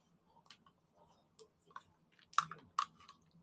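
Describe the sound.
Soft mouth sounds of someone eating pudding, heard alone: faint, scattered wet clicks and smacks that grow a little louder toward the end.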